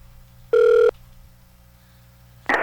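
A telephone being dialed on a call-in phone line: a single steady electronic tone lasting under half a second, followed by quiet line hiss, then another tone burst starting right at the end.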